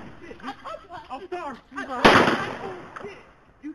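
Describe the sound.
A single gunshot cracks out mid-clip as a sudden, loud burst with a decaying tail, set amid ongoing talk.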